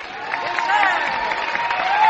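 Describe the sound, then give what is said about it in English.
Audience applause greets two young guests at the Grand Ole Opry, a dense, steady patter of clapping that holds at a moderate level from start to finish and swells slightly at the end. “So let's make them welcome, Rusty and Doug.”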